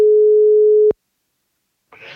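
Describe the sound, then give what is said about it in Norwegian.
Telephone ringback tone while placing a call: a single steady, pure mid-pitched beep lasting about a second, cut off into silence before a faint sound begins. “Nå skal jeg ringe Hasse Hope fra selveste Tweet for tweet.”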